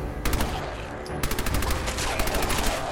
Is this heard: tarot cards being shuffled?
no

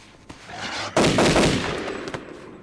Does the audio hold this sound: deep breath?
no

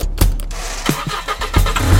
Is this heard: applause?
no

